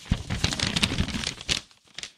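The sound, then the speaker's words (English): A paper envelope being handled and opened at an awards announcement: loud, irregular crinkling and tearing rustles follow one another closely, dropping to a brief hush before a final crisp burst. “The envelope, please. The envelope, please. All right. I'm being handed the envelope.”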